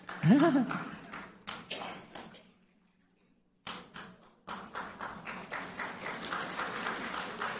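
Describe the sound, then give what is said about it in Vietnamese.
An audience claps as small children from a church nursery walk in. A voice speaks at the start, a brief hush follows, then a steady run of sharp, rhythmic claps continues to the end. “Chúng ta vỗ tay cho các em bé đang vào với chúng ta bây giờ.”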